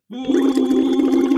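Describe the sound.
A voiced hum blown through a thick speech-therapy tube into water gives a steady, buzzing, bubbling tone. It starts abruptly and holds at a loud, even level.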